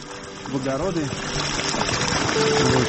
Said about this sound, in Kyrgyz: Жители жалуются на то, что жоон түтүктөн капкара суу агып чыгууда, а капкара суу айылга агып барат.